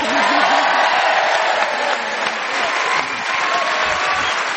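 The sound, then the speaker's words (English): A studio audience at a team quiz show applauds a panellist with loud, steady, sustained clapping and a few cheers. Voices are audible briefly at the start. “Well, Sue, you may have fewer points than the rest of the team, but you've certainly got bigger applause from this audience. They're rooting for you.”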